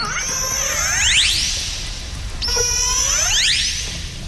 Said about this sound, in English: But when it comes to communicating with each other, they create the other sounds, the ones that sound like this.